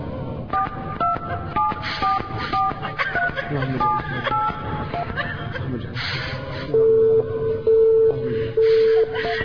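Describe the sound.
Telephone keypad tones as someone dials to call a woman's husband: a run of short beeps, then a few longer steady tones repeating, with voices and breathy sounds underneath.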